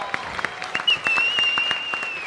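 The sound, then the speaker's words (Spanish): Applause for a mentalist: a scattered audience claps in separate sharp slaps, while a thin high whistling tone enters partway through and holds steady beneath the clapping. “Un aplauso, por favor, para Ricardo.”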